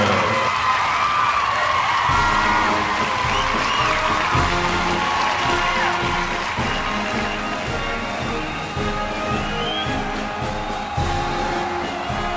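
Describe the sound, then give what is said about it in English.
Crowd applause and cheering with whoops welcoming a halftime marching band, a loud, dense roar that carries on throughout. “Now, please put your hands together and welcome the What's on Draft Marching Band.”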